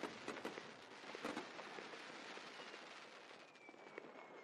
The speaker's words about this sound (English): We have fireworks going off.